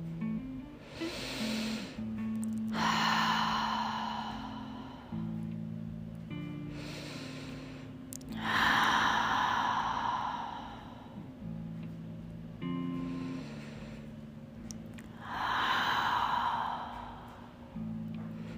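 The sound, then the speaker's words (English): Slow, deep intentional breaths during a gentle yoga class: three unhurried inhale-and-exhale pairs, each inhale shorter and each exhale a long, audible sigh, over quiet sustained background music. “Take a few intentional deep breaths here and sit with your intention.”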